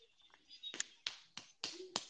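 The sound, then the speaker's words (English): A tablespoon slammed into something while cooking: a quick series of sharp, faint taps and knocks, with no voices. “So aggressively slams tablespoon into thing.”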